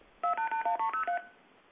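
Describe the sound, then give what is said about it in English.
Seven quick touch-tone keypad beeps sound in an even rhythm as a number is dialed over a telephone line. A faint line hiss remains after the last beep. “Let me see if I could dial.”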